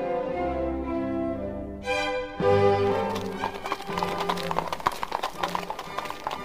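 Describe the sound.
Hooves clip-clop as a horse-drawn carriage arrives at Briony Lodge. A sustained musical passage gives way to a rhythmic, fairly soft patter of hoofbeats that continues to the end.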